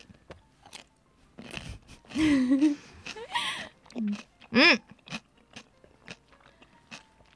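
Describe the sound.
Crisp bites and crunchy chewing of homemade rice-vinegar pickles steeped with bay leaf and chili, in a few short bursts mixed with voices and brief vocal reactions from people eating.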